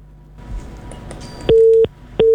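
A telephone line disconnecting during a radio phone-in to a caller in Tebet: faint line noise and scattered clicks, then two long beeps of the same steady pitch that mark the dropped call.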